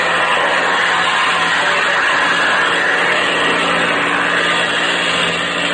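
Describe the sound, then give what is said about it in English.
Airplane engine throttling up for a steep climb, a loud, steady roaring drone that fills the whole clip with no talk over it. “Okay, I'll open the throttle and stick her nose up.”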